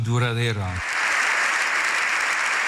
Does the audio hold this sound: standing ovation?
yes